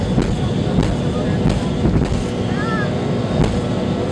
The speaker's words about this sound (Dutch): MD-83. En die gaat opstijgen en die heeft ook te maken met een compressor stall.